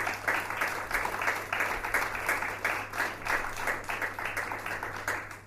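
An audience applauding to welcome a lecturer, steady and fairly dense clapping from many hands that continues evenly throughout and eases slightly at the end.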